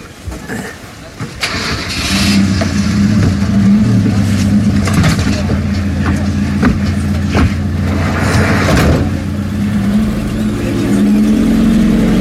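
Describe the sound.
A minibus engine starts and settles into a steady running drone as passengers set off under a three-officer police escort, with voices talking over the motor throughout.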